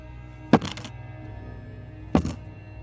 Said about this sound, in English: All right, you've heard some rolls. You've heard some metal dice thumping.